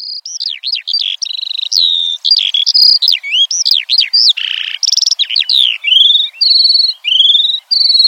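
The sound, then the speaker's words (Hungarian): Eurasian skylark song pours out as an unbroken, rapid stream of high, warbling chirps, whistles and trills, loud and clear with only brief gaps between phrases. “Ez volt tehát a mezei pacsirta hangja, mely alapvetően akár 2-3 percig folyamatosan énekel”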